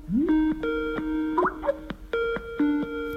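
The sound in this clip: A Skype incoming-call ringtone plays a bright, repeating electronic melody of short tonal notes. A quick bubbly upward flourish sits in the middle, and the ringtone sounds steadily on its own.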